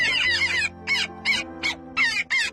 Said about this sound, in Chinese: 我们达乌里寒鸭现在又飞了回来